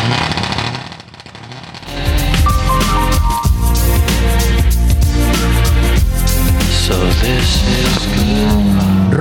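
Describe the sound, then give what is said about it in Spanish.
A Mitsubishi Lancer Evo 9 rally car engine roars at a rally start line. A quieter rumble gives way after about two seconds to a loud, sustained, dense roar that holds steady to the end. “el motor del Mitsubishi Lancer Evo 9. Ruge Jorge Coca”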